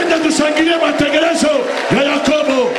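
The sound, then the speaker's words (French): A church audience cheering and acclaiming, with many overlapping shouting voices rising and falling in loud bursts over a continuous crowd murmur. “Je voudrais qu'on acclame le programme de Jacob.”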